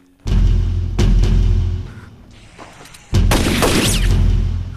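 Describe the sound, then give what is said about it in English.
Shotgun blasts fired in an audio drama: a few heavy booming bursts that fill the whole range, each with a long rumbling tail. They are loud and heard alone, with no talk. “He puts the shotgun to his chin and blasts out his brains.”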